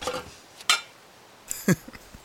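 Pots and pans clank while breakfast is cooked: a few sharp, fairly faint metallic knocks and clatters spread over a couple of seconds.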